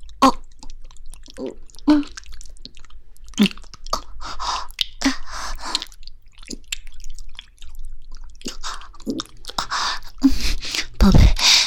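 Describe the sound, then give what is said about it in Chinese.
Chewing while eating a sundae and grilled chicken wings: many intermittent wet, squishy bites and smacking sounds come in uneven bursts separated by short pauses, fairly loud throughout. “我买了圣代，晚上又点了烤翅，正在吃东西呢”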